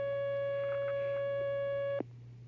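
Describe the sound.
A telephone line tone sounds while a call-in caller is being connected: a steady, unbroken electronic tone for about two seconds that cuts off with a click. A low hum stays underneath, and there is no talk.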